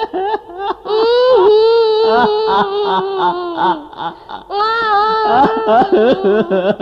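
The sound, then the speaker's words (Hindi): A child cries in long, loud, quavering wails, held at a high pitch, broken by short catches of breath and sobbing bursts. “अरे तुम रोने क्यों लगे?”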